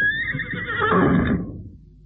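A horse whinnies in a single long, shrill neigh that wavers and trails off into quiet, with no talk.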